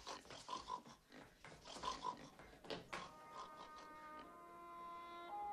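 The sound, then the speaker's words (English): A woman imitates a pig, oinking in a run of nasal, snorting grunts in short bursts, followed near the end by a steady tonal hum. “Annie oinks at Paul and chases Misery out of the room.”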